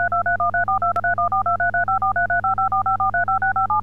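Telephone keypad tones dialed on a call to an automated emergency line menu: a rapid, evenly paced run of many two-pitch beeps over a steady low hum.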